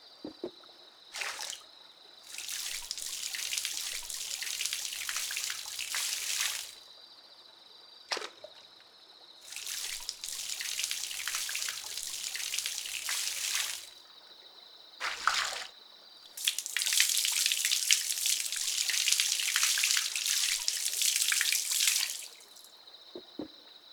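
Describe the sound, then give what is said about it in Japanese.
Hot water is poured over a person after their body has been washed. Three long splashing pours, separated by brief quiet gaps and short spurts, with a soft continuous trickle between them. “それではお湯をかけていきますね。”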